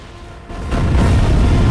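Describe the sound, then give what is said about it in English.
Ignited powder explodes through a palace, rising from a quieter rumble into a deep, loud boom that swells and holds as a heavy, sustained roar to the end. “Meanwhile, the fuse ignites the powder and a mighty explosion rips through the palace.”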